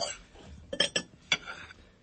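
A serving spoon clinks on dishes while spaghetti al pesto is served: a few sharp, light metallic clinks, fairly faint, spaced irregularly over a quiet background.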